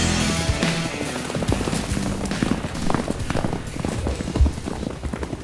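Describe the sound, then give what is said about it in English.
Horses gallop through town, their hooves pounding out a fast, irregular run of many thudding beats at moderate loudness. “Four horsemen of the apocalypse galloping through town.”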